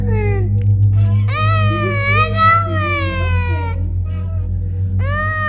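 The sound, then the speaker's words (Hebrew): A hungry child cries in long, high, wavering wails: one sustained outburst, then a fresh wail starting near the end, over a steady low hum. “אל תבכה, אל תבכה.”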